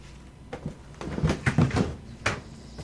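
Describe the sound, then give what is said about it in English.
An archive box is pried open by fingers, giving a quiet sequence of scraping, rubbing and creaking with a few sharper clicks, and no speech. “what I'm doing here is that I'm prying the archive open with my fingers.”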